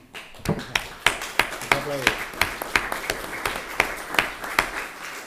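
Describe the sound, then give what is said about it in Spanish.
Slow, evenly spaced handclaps ring out at a public debate on the 15M movement and election results, many sharp claps repeating in a steady rhythm while a voice talks underneath. “aplaudir es gratis.”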